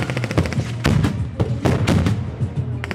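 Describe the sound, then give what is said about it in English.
Live-ammunition gunfire rattles through a simulated military attack at a training camp, with many sharp, loud shots and bursts fired in an irregular rhythm, some clustered rapidly together and others spaced apart, over a continuous low rumble. “Hezbollah fighters unloaded their weapons around us in simulated attacks on fake Israeli positions. This is live ammunition being used.”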